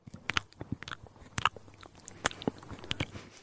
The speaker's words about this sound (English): Have a bit of thyme. Let's both have a taste together.